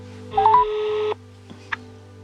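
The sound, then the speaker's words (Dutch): A telephone dialing a call: a steady tone lasting under a second, followed by two short, separate beeps over a low constant hum. “Ik ga even een van de buren bellen vragen of zij hem misschien kennen.”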